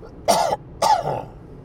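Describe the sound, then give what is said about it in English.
A person clears their throat twice, two short, gruff rasping bursts with a brief pause between them and no talking. “Sorry, I'm going to have to clear my throat.”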